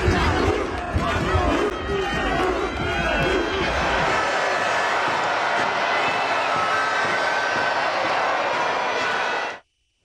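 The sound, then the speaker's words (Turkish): A huge crowd in Madrid celebrates Spain's World Cup victory. Loud chanting and shouting give way to a sustained, roaring cheer that cuts off abruptly near the end. “İspanya'nın şampiyonluğu Madrid'de coşkuyla kutlandı.”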